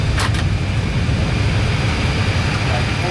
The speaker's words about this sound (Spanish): Freno puesto, compresión, APU available, paramos el motor 1, el 2